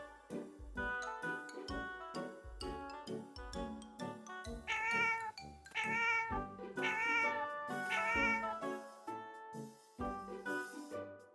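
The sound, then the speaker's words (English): A cat meows several times, drawn-out tonal meows set against a busy background of tinkling, percussive sounds. “Cat.”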